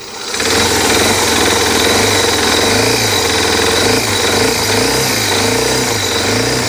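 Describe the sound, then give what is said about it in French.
An older motorcycle with a weak battery and carburetion trouble is started and kept running. Its loud engine swells in at once, then holds a steady, rough rumble with a wavering low throb throughout. “la batterie qui est un peu faible, la carburation, c'est une moto qui est un peu plus ancienne. Donc du coup, voilà, il faut un peu plus de temps pour mettre en marche.”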